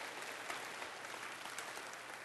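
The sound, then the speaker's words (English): A church audience applauds its Sunday school teachers during an evening service, giving a soft, steady patter of many hands clapping that stays even throughout, with a few slightly sharper claps standing out. “Hey, give these Sunday school teachers a hand tonight.”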